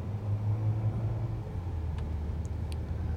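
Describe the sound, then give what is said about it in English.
A car drives through the town of Bethlehem, Pennsylvania, past the Union Cemetery, giving a low, steady engine and road rumble with no breaks. “Folks, if you can get yourself to Bethlehem, Pennsylvania, just drive through the town. It's a nice scenic drive. We're driving past the Union Cemetery.”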